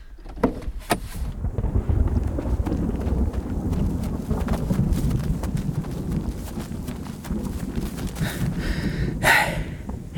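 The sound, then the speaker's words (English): Horse hooves clip-clop steadily across a field in a continuous uneven rhythm, with wind buffeting the microphone and a brief snort-like burst near the end. “It's a talking horse?”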